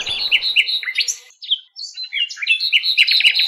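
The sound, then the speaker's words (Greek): Bird chirping: many short, high, bright chirps and quick trills in rapid runs, with a brief lull midway before the calling picks up again, heard alone without voices. “Σώπα, δάσκαλε, σώπα να ακούσουμε το πουλί.”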